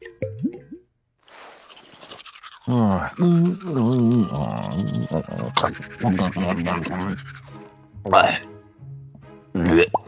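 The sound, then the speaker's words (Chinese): Toothbrush bristles scrubbing as someone brushes their teeth on the moon, swallowing the water afterward; brisk scrubbing comes in bursts, mixed with voiced, throaty sounds from the brusher. “在月球上，独孤月又开始了新的一天，起床洗漱。在宇宙中刷牙的方式很特别，要把刷牙的水咽下去。”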